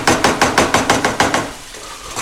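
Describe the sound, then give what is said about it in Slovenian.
Frozen minced meat fries in a pan as it is worked with many quick, evenly spaced scraping knocks, loud at first, then fading to a quieter hiss. “Zato bom torej v posebni ponvi že pražim mleto meso.”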